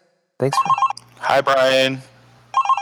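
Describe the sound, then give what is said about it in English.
Telephone ring tone in pulsed electronic bursts, one short group near the start and another at the end, with people talking in between. “Oh, I'm going to make a phone ringing sound.”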